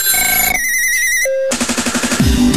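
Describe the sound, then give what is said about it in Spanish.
A telephone rings for an outgoing call during a radio phone-in. Steady electronic tones come first, then a loud, rapid, rattling bell-like ring. “Vamos a hacer la llamada. La llamada.”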